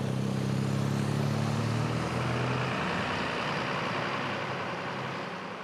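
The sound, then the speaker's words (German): Low, steady engine rumble from a ferry arriving at the dock in Travemünde. It stays loud throughout, with droning low hums in the first few seconds that give way to a broad, even wash of noise. “Ankunft in Travemünde.”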